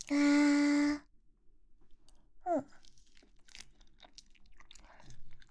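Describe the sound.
Crunching bite into a snack, with one crisp crunch partway through followed by faint, scattered chewing and rustling sounds.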